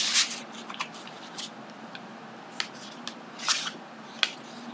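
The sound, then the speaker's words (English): A card drawn from a Woodlands Wardens oracle deck: a few crisp papery flicks and slides of cards, short and fairly quiet, with soft rustling between them and no talking. “So I wanted to draw a card for us and see what comes through to start our Wednesday off.”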